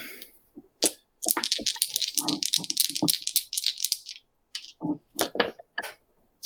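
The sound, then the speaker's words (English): A six-sided die rolled for a tabletop game: a long run of sharp rattling clacks and clicks, dense and continuous at first, then breaking into a few separate bursts. “one of you roll a d6 and tell me what you got.”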